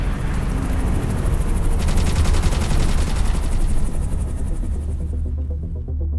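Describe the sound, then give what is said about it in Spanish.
Gunfire erupts as sustained, rapid automatic bursts in a dense, loud barrage over a low rumbling hum, with the sharp crackle thinning out in the last second. “¡Nos disparan! ¡Cúbrete!”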